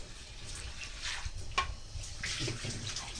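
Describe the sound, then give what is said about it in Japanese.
Washed rice and its rinse water tipped into a colander to drain, giving a soft, continuous splashing pour that swells and fades a few times. “したらザルに、お水を切るためにザルにお米を移します。”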